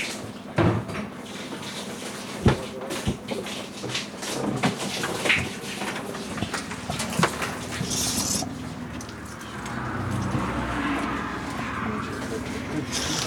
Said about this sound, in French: C'est quelqu'un qui prend sa douche, mais pas n'importe où. Si l'on entend l'eau qui coule, on entend aussi très bien les voitures.